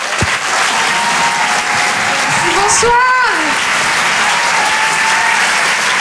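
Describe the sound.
A comedy club audience applauds a stand-up comedian as she comes on stage. The clapping stays dense and steady throughout, and a woman briefly greets the crowd over it partway through.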